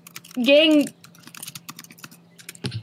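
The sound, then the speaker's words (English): Typing on a computer keyboard: many light, rapid key clicks in an irregular rhythm, with a brief voiced sound near the start and a heavier thump near the end. “Are you typing death threats to me?”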